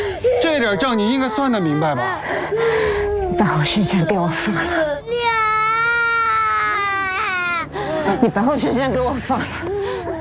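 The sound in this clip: A young child cries loudly in rising and falling sobbing wails, including one long, high sustained wail partway through, mixed with agitated adult voices.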